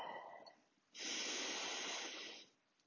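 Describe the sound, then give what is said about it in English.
A single deep in-breath during a relaxation breathing exercise: a steady, airy inhale of about a second and a half that starts abruptly and holds at a loud, even level, after a faint lead-in, with no talk. “Now take a deep in-breath,”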